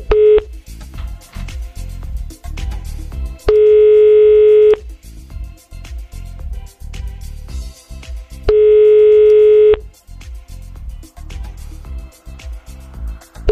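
Telephone ringing tone on a line while calling a listener: a short steady beep at the start, then two long, even, mid-pitched tones, separated by gaps of quieter low sound.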